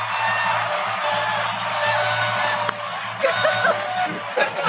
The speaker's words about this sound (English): I'm trying to quickly find my sound effects here. So, Umbra. Play that.